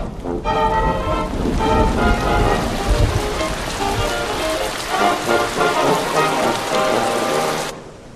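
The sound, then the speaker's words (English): Rain falling on surfaces, starting abruptly and quickly becoming a steady, dense downpour of pattering drops that stays loud and even before cutting off at the end. “They look up as rain begins to fall.”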